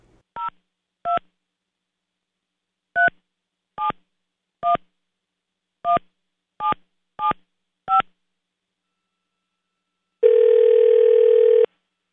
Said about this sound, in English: Here, just hear how it will sound. Okay, ready? I'm dialing.